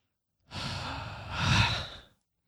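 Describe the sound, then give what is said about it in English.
A person groans in one long, breathy exhale lasting about a second and a half. It swells louder toward the end before fading out, with no speech. “I was just groaning.”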